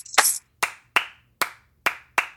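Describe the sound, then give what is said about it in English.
Six sharp hand claps in the uneven, syncopated pattern of a Gullah Geechee Sea Islands polyrhythmic clap, each a crisp dry crack with short gaps between, the first slightly longer and fuller. “which people call a polyrhythm or a Sea Islands clap. That becomes the bass, and I mean bass, B-A-S-E and B-A-S-S, of actually the spiritual rhythm that evolves then”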